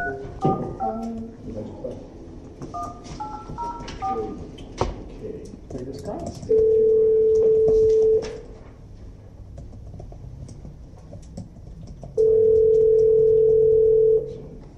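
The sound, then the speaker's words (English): A telephone number is dialed during a meeting: a few short keypad tones come first, then two long, steady dial tones separated by a pause, over a busy background with low voices. “Hopefully I dial the right number, right?”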